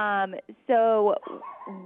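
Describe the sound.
A small dog giving a few drawn-out, tonal barks and whining yelps with short breaks between them, loud and high-pitched.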